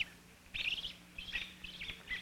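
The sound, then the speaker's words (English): A robin calls while diving at a cat climbing toward its nest. A few short, high, harsh chirps come in quick bursts with brief gaps between them, fairly faint over a quiet background. “For a moment longer, Father Robin watches, and then suddenly he flies straight at the cat. And now he dives at him.”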